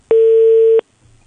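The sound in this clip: A telephone call tone sounds while a number is being dialed: one loud, flat, steady beep lasting under a second that stops abruptly, followed by near silence with a faint low hum.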